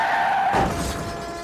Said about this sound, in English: the car suddenly rear-ends the vehicle in front of it